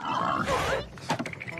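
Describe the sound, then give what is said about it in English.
A tusked hunting boar grunts and rumbles, starting with a rough, sustained growl in the first half before it breaks into shorter, choppier grunts. “A boar with tusks rumbles at Scooby.”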